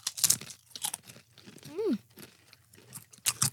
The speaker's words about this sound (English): It smells like barbecue Pringles. It does. What are the chances this is good?